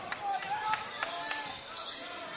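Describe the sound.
A basketball is dribbled during a game, with several sharp, evenly spaced bounces standing out above a steady wash of crowd noise.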